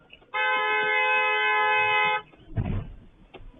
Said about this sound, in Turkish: Sonradan savcı olduğu öğrenilen sürücü de defalarca kornaya basarak minibüs sürücüsüne tepkisini gösteriyor.